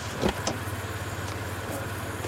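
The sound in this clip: Car engine running with a low, even hum as the vehicle drives through an opened wire fence gate on private land. Two brief knocks come early, then the engine sound holds steady and moderately quiet.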